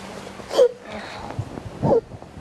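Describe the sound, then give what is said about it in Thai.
A young child sobbing, with two short, strained crying bursts separated by softer breathy whimpers, fairly quiet overall. “เก่งมากหนูเก่งมากลูกหนูหยุดร้องให้หนูเก่งมากเลยไม่ต้องร้อง ลูกสะอื้น”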